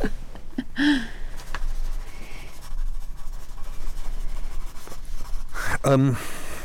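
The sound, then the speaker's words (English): A pen scratching on paper as a note is written by hand, with soft, continuous scratchy strokes lasting several seconds and brief voice sounds at the start and end. “Actually, just give me 1 second. I'm just going to write a note before I do.”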